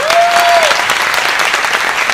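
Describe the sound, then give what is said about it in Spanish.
Loud applause for a neighborhood dance school at a community event in Barranquilla, dense continuous clapping from a crowd with a brief whistle-like tone at the start, steady throughout. “Un aplauso para ella.”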